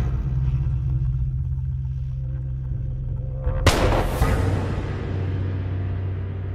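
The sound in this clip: A pistol gunshot fired in a duel at the edge of a plateau: one sharp, loud crack bursts out of a steady low rumble, then its bright tail fades slowly over the next few seconds.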